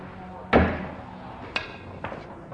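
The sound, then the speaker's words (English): A pool cue strikes a ball in a one-handed, jacked-up cut shot toward a pocket, giving one sharp crack followed by two fainter clacks. “I'll try to cut the ball in that pocket one-handed, jacked up. Supposed to be the best shot they are one-handed, and it's a very hard shot with two hands.”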